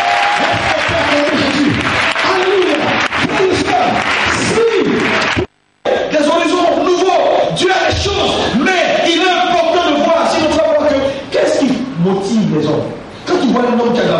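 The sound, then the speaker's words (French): Congregation at a French-speaking church service applauding and calling out in praise of Jesus; loud, continuous clapping with raised voices and shouts, broken by one brief pause midway. “Est-ce qu'on peut acclamer Jésus?”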